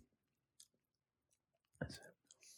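Someone chews a spiced raisin snack made with brown sugar, ginger, allspice and cinnamon. Faint, scattered mouth clicks lead up to a louder burst of crunching near the end.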